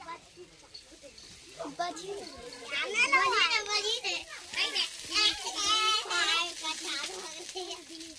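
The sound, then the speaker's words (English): Children play tag between huts, with many lively overlapping young voices shouting and squealing throughout. “the kids are playing tag in between the huts.”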